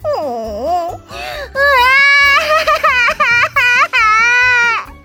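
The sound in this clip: A young girl cries loudly from the heat on a hot day, with several long, strained wails that swoop and waver in pitch, separated by brief catches of breath.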